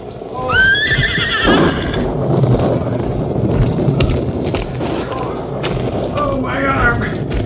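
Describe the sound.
Silver, the Lone Ranger's horse in an old-time radio western, gives a loud rising-and-falling whinny near the start and a shorter one near the end. Hoof thumps and a voice speaking run underneath.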